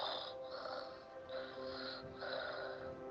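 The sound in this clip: Snoring from a brave sleeper in a deep sleep: a few drawn-out, rasping breaths repeat in a slow, even rhythm, soft and alone.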